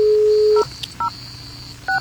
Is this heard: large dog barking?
no